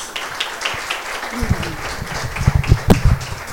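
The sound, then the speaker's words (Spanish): Applause from an audience at a forum on freedom of expression and women's participation in Guatemala: a steady, moderately loud patter of clapping that grows denser and louder in the second half, with a few sharper claps near the end. “Creo que es un aplauso más fuerte para todas.”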